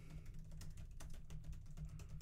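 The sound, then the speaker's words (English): Faint, rapid clicking of a computer keyboard as someone types quickly during an online search, a steady patter of many keystrokes. “Furious Googling is happening right now. You can hear that in the background.”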